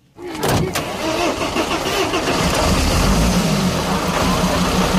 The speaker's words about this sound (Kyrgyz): Таңертең мектепке жөнөгөн бул окуучуларды мына ушул кичи автобус мектепке алып барат.